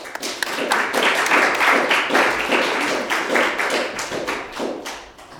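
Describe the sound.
Audience applause welcoming a speaker to a presentation on women's suffrage, dense, steady clapping of many hands sustained for about five seconds, thinning slightly toward the end.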